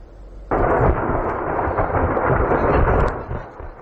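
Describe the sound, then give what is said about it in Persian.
Munitions explode at a burning Ukrainian Defence Ministry arms depot in the Kharkiv region. A sudden loud blast opens into about three seconds of continuous deep rumbling and crackle that then eases off. “تا کنون سه یک انبار سوخته پیوسته صدای ترکش مواد منفجره به گوش میرسد”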